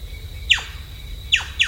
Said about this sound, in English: And other species start moving in. Like the blonde-crested woodpecker,